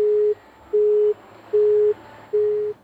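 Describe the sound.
Busy tone on a phone call that has disconnected: four steady, mid-pitched beeps of equal length in an even rhythm, separated by short silences, with no voices.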